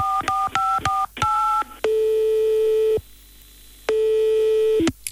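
Push-button telephone tones as a number is dialed: a quick run of short dual-tone beeps, then several longer steady tones separated by brief gaps, ending in a clipped final beep, all loud and with no voices.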